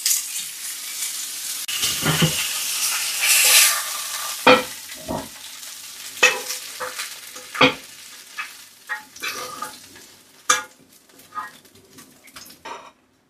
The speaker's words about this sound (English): Now that the pork belly is nearly cooked all the way through, I'm going to add in the spring greens.